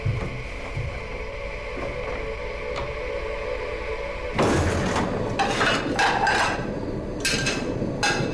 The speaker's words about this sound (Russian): загружает посуду в посудомоечную машину.